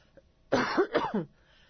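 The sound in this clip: A short, rough throat clearing comes in a few quick bursts against near silence.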